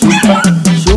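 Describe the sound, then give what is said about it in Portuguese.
A dog barks in short, sharp yips, about five of them in a steady, evenly spaced rhythm, each one loud and bright. “Tem um cachorro latindo aí?”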